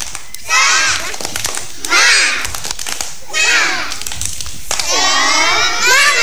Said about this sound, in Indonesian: Ayo sekali lagi, tepuk semangat.